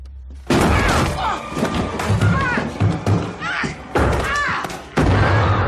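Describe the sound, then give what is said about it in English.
A person tumbles down basement stairs in a loud series of heavy thuds and crashing bumps, mixed with cries, with short breaks between the impacts. “That was the sound of Lorraine Warren falling down the basement stairs.”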